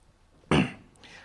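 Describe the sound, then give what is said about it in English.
A man clears his throat once: a short, gruff, rasping burst that fades quickly, heard alone against a quiet background. “Donnie cleared his throat.”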